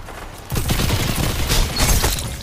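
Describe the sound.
Gunfire from a Crucible match in Destiny 2 starts after a brief quiet moment. Rapid shots then run in dense, loud bursts until the end.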